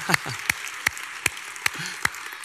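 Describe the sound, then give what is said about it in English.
An audience claps for the children at a Christmas church service. About seven sharp claps land together in a slow, even rhythm over a faint murmur of voices. “All right, we'll clap for the kids.”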